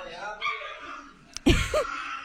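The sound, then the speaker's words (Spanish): An angry chihuahua barks: two sharp, high yips close together in the second half, following a stretch of quieter background sound. “Es que los chihuahuas son bien intensos, ¿eh? ¡Ve nomás! ¡Está enojado!”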